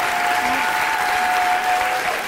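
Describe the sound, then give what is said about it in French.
Applause from a theatre audience giving a standing ovation, with dense, steady clapping that holds at an even loudness throughout. “Une standing ovation. Mesdames et messieurs, une femme fontaine d'applaudissements pour Audrey Pirot et Jérôme Niel.”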